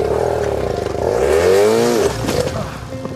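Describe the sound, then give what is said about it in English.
A bike engine revs as more throttle is given. Its tone climbs and then drops back over about a second before settling into a rough, clattering run. No one speaks. “Give it more gas, and that's it. You gotta give it a lot of gas. More, there we go.”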